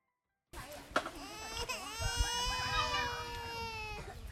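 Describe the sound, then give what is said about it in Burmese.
A two-year-old child crying while its mother tries to soothe it. The sustained, high, wavering wail begins abruptly after a moment of silence and carries on loudly. “ဒေါ်ဘရိုနီကာတယောက်ငိုနေတဲ့အသက်2နှစ်အရွယ်ကလေးငယ်ကိုနှုတ်တိုက်ဖို့နှုတ်စီဖြော်နေပါ”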